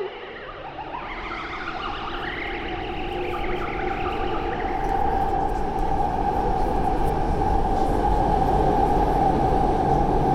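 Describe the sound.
Subway train riding: a loud, steady rumble of wheels and carriage that swells slightly and then holds, with a high wavering whine early on and a sustained hum.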